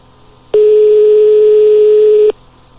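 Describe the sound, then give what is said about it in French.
A telephone line rings on a call placed to a disco club: a single loud, steady tone at one pitch, lasting under two seconds, alone against faint background noise. “On appelle le club discothèque.”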